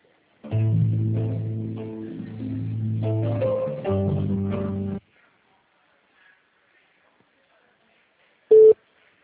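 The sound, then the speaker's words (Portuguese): Electronic telephone tones while a call is being transferred: several seconds of stepped, repeating tones, then silence, then a single short beep. “Só um momento que eu vou transferir sua ligação.”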